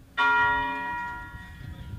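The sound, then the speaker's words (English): A single deep strike of a church bell at the historic Claiborne Temple in Memphis, Tennessee: one bright metallic clang whose rich, layered overtones hum and slowly fade, heard alone. “today, when that moment passed, a bell from the city's historic Claiborne Temple rang out.”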